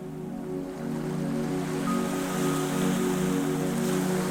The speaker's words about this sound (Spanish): Os dirigís hacia un pequeño muelle cercano en el que hay amarrada una embarcación de motor que se balancea suavemente.